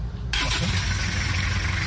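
A car engine restarts at a market: a low rumble gives way to the engine catching, then a steady, broad running roar over a deep low hum that holds to the end.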